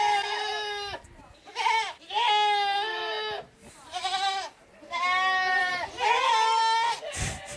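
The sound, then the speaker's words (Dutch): Goats roaming free on Sint Eustatius bleat loudly in a string of long, wavering cries, one following another with short gaps between them. “Duizenden geiten lopen rond op Sint Eustatius.”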